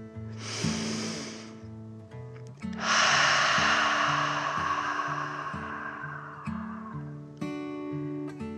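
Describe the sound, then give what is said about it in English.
A narrator takes a deep, performed dragon breath for a children's story: a short breathy rush, then a longer, louder one lasting several seconds that fades away, over soft melodic music. “he took a deep dragon breath in and out”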